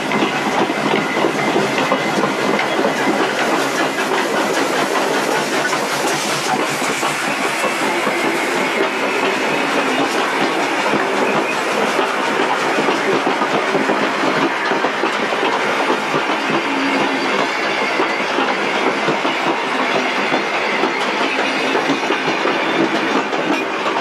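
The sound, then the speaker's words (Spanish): Train departing a station in Australia: a loud, continuous rumble with steady clickety-clack of wheels on rails and a broad hiss, holding an even level for the whole stretch. “Saliendo de la estación de Mockleford, Australia.”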